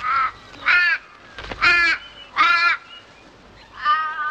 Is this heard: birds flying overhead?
yes